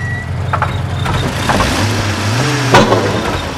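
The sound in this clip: A car engine runs steadily at idle during a roadside stop, a low even rumbling hum that holds throughout, with a brief higher whine near the end.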